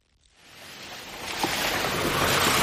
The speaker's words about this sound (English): What you're hearing are the winding, dizzying dirt roads up the mountains of northern Nepal. The roads have only recently opened up since the flood. They're muddy, and that's because of the rains.